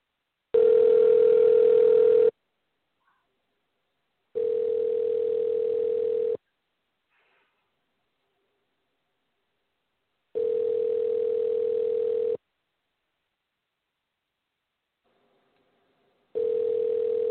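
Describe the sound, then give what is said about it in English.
Telephone ringing tone on an outgoing call: four steady, evenly pitched tone bursts of about two seconds each, separated by silent gaps, with no voices. “Figure out how to dial out. I always hit the wrong button here.”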